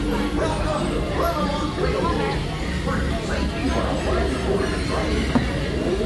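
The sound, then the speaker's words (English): A ride train with lap bars rumbles steadily as it rolls along, a dense and continuous low roar with a murmur of crowd voices mixed in throughout. “What kind of a train is this if they gotta have a lap bar? And it's gonna get windy.”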